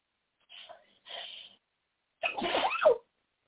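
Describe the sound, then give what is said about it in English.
A single forceful sneeze from someone with allergies, preceded by two breathy inhales, fairly quiet and alone with no talk over it. “I'm about to sneeze, folks.”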